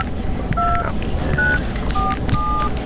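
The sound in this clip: Telephone keypad dialing tones: four short, steady two-note beeps pressed one after another over a constant background hum.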